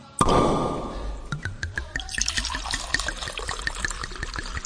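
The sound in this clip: Red wine poured from a freshly opened bottle: a sharp initial burst is followed by a steady gurgling trickle broken by many small glugs and drips, moderately loud and without talk.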